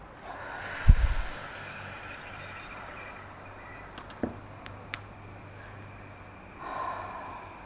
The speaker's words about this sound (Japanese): はい、じゃあ最後に深呼吸をして、